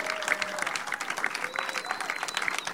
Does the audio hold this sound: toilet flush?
no